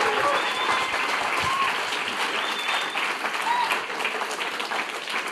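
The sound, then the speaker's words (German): Audience applause in a church service, many people clapping for Jesus: a thick, sustained roar of hand claps with a few high cheering tones above it, steady and loud before easing slightly near the end. “Ich möchte euch nochmal bitten, den gleichen Applaus nochmal für Jesus zu geben.”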